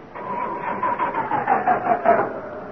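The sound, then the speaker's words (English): A car engine cranks over and over without catching after long attempts to start it, draining the battery. The starter makes a steady, rhythmic churning whine with a tonal hum that sinks slightly in pitch. “No, don't do that. You're running down the battery. You're abusing the motor.”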